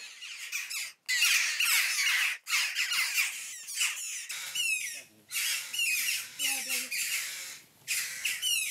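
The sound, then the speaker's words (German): Hungry common buzzard chick squawking: a loud, harsh, raspy run of calls repeated many times, broken by a few brief pauses. “Schwächere Stimmbänder, aber mindestens genauso hungrig. Das Mäusebussardküken.”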